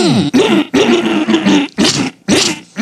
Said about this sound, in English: Got a little something on my throat, you know what I mean? Let me clear it.